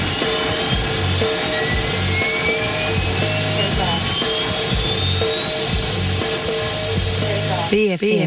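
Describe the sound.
Jet airliner taking off: a loud, steady engine roar with turbine whines sweeping slowly upward in pitch, continuous for the whole stretch.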